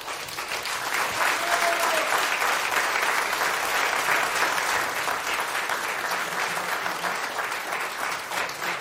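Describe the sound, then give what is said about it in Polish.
Applause from an audience at a charity auction event, a dense, steady wash of clapping that holds evenly loud throughout without pause. “Brawa do Polskiego Radia za wsparcie.”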